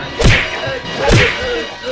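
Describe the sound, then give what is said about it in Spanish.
Punch sound effects from a radio drama fight, with fists knocking out guards lying in undergrowth. Two loud, sharp whooshing thwacks land about a second apart. “Los puños de Calimán entran en acción. Los dejan fuera de combate a los guardias tendidos entre la maleza.”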